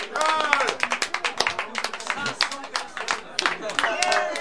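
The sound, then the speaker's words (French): Audience applause at a French poetry reading, a quick, uneven patter of many hands clapping while voices cheer and talk over it throughout. “Applaudis d'abord.”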